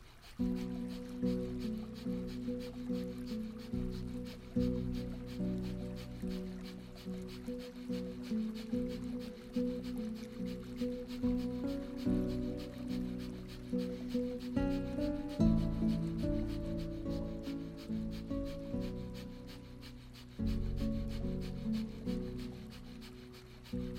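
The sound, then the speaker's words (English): Rapid yogic breath of fire during a morning energy practice, done with eyes closed: many short, forceful breaths pulse in a steady, quick rhythm over sustained background music. “With your eyes closed, concentrate above the head and begin breath of fire.”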